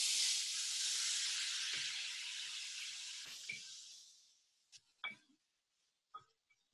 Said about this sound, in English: just to make sure that it has enough moisture and to seal the daikon flavor in, I'm going to sprinkle it with some veggie broth.